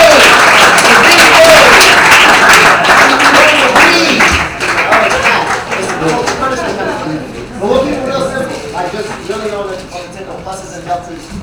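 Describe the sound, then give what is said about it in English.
An audience applauding itself at an event: dense, loud clapping that fills the first seconds, then thins and fades as people begin talking over it. “Give yourself a round of applause.”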